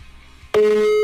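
A telephone tone sounds on an outgoing call, starting abruptly about halfway through as a loud, steady single-pitched note after a quiet stretch and holding unbroken to the end.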